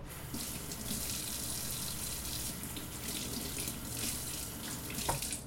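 Fizzing, crackling bubbles from a sourdough starter, a steady bright hiss with fine crackle throughout and one slightly sharper pop near the end.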